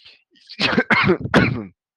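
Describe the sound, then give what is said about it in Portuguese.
Coughing and throat clearing after choking: three harsh, throaty bursts in quick succession, loud and alone. “engasguei, desculpa, gente.”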